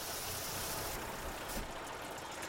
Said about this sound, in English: That, Commander, is our ride. So much smoke. I have never seen anything like... Not smoke, Commander. It's a steam carriage.